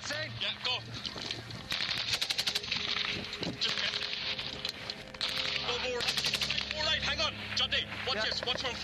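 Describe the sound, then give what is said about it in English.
Machine-gun fire and rifle shots in a battle between British Army soldiers and Taliban fighters, rapid loud bursts and rattling volleys over several seconds, with background noise and shouting voices mixed in. “The British Army are involved in a gun battle with the Taliban.”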